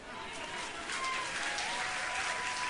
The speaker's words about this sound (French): Tu as raison d'acclamer, pourquoi tu t'es arrêté?